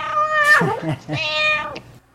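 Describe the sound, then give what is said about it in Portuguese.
Cat meowing: two drawn-out, tonal meows in quick succession, the second slightly longer, moderately loud and without other sounds. “Miau.”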